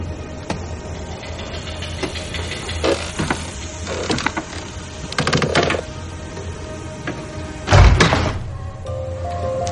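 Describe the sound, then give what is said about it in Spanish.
Light switches clicking as they are flipped, first one and then another, without the light coming on. A few dull clicks and thunks stand out over a steady low hum, with no voices. “Intenta encender la luz pero no funciona. Repite sin éxito lo mismo en otro interruptor.”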